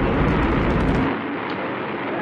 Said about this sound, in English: The Atlas missile has lifted off of the pad and is rising steady into the sky.